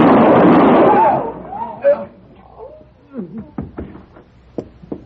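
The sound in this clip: A single loud gunshot bursts out and its harsh roar fades over about a second, followed by people talking.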